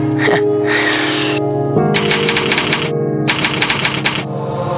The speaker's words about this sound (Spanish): Dije, lo voy a teclear para no equivocarme.